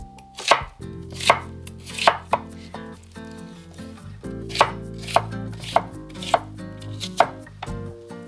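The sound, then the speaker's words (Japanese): Knife slicing a halved onion, cut side down on a cutting board, into thin slices for soup. It is a series of crisp, sharp thuds at a steady pace with a short pause midway, over faint tonal background sound. “玉ねぎが切れました”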